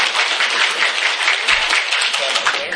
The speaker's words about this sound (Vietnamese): Rồi vỗ tay để chơi cùng.